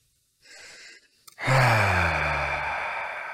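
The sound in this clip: A group of people breathe together in a guided breathing exercise after rubbing essential oil between their hands: first a soft breath, then a loud, long collective sighing breath with a slightly falling voiced tone.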